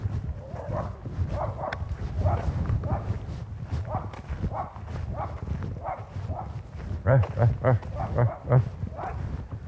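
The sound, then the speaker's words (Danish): A dog barks repeatedly and without control during an obedience training walk, giving many fairly evenly spaced barks over a steady low background, with a quicker cluster of louder barks near the end. “Det der helt udisciplinerede gø der, det er jo ikke noget, vi belaver os på, vel?”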